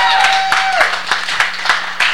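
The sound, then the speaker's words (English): Audience members clap for a woman after a brief shouted exclamation. Several sharp claps land at a fairly regular rhythm, each short and distinct. “Everybody, give her a round of applause for a little...”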